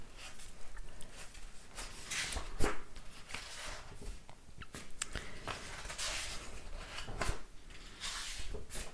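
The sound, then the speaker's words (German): Pages of a 2025 planner being leafed through: many soft papery swishes and flicks at an uneven pace, with no talk over them. “Ich bin im falschen Jahr. Ich bin in 24, das ist falsch. Wir reflektieren das Jahr 25. Moment, ich blättere.”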